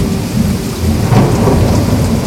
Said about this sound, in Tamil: மேகங்கள் கர்ஜித்து மின்னல் பளிச்சிட்டது. மழை வெள்ளமாய் பொழியத் தொடங்கியது.